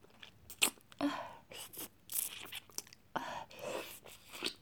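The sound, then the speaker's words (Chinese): Quiet eating and chewing of food: a series of soft, moist crunching and smacking bursts in an irregular rhythm, separated by brief pauses, with no talking. “我要都吃到嘴巴里，把我的手指舔干净。”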